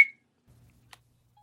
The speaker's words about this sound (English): Put a whistle sound when I say who I'm calling.